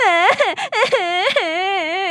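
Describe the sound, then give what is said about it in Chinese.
A voice imitating a little boy crying: wavering, sobbing wails in a few broken bursts, loud and high, with brief catches of breath between. “这个小男孩呢就忍不住哭了起来。”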